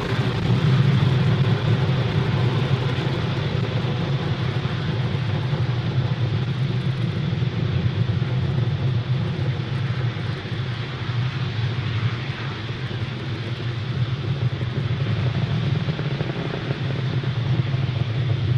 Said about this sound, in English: Falcon 9 has successfully lifted off from Pad 40 at Cape Canaveral Air Force Station,